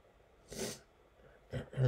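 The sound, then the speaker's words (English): A person sneezes while reading scripture aloud. One hissing, explosive burst comes first, then after a pause two shorter sharp bursts of breath, each fairly loud against a quiet background. “If I sneeze more than twice, it means it's going to be a lot of them, so let's see if I can get through this.”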